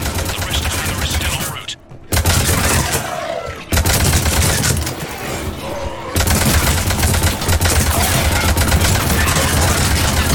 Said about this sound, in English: I really hope that y'all like the sound of the Avenger just firing constantly, because that's what you're gonna get for this final mission, apparently.